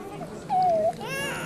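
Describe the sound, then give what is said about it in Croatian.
Short wailing cry of a child, a single drawn-out whimpering tone that swells and fades within a second over low background noise. “Rasplakali smo dijete.”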